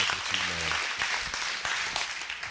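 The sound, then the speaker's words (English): A church audience claps to welcome a pastor onto the stage, producing a dense, fairly soft wash of many overlapping hand claps that continues steadily throughout. “would you guys put your hands together, together give a great Next Level Church welcome, Pastor Herbert Cooper”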